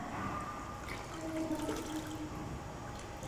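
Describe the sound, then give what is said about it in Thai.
Water trickling and dripping as a child wrings out a wet cloth, a steady, continuous wet rush that holds at an even level throughout, with no talking. “ไหนหนูลองบีบผ้าไหมลูกเอาลองบีบผ้า”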